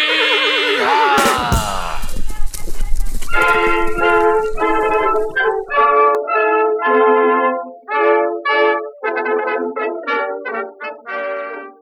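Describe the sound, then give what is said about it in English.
A horse whinnies, then galloping hoofbeats start as the rider leaves. The whinny comes first, followed by many steady, rhythmic pulses of hooves that stay loud until the end, with no talking. “Saddle up and ride, Rimshot.”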